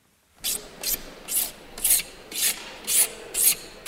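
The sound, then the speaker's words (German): Filing in exhibition halls being set up for a summit makes about seven evenly paced, harsh rasping strokes, each a short hiss of metal or wood with brief pauses between. “In den Hallen wird noch gefeilt und gehämmert.”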